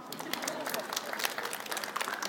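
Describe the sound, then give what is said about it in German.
Faint audience applause follows a story about a young man's mission. Quick, dense clapping stays fairly even throughout. “Applaus.”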